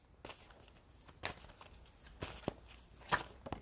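Oracle cards being shuffled and drawn, heard as soft, faint rustling with a few sharp taps and flicks, alone without talk.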